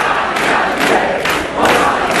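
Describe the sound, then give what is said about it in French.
Supporters cheer and shout at a Jean-Luc Mélenchon political rally in Paimpont. The crowd roars continuously and loudly, swelling in repeated surges. “Un public conquis qui n'a qu'un seul mot à la bouche, la victoire en 2027.”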